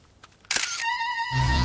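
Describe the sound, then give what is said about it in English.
Camera shutter click as a viewfinder camera is pressed: one sharp, bright snap, followed by a steady high electronic tone and then a low hum. “She peers into the viewfinder and presses the shutter.”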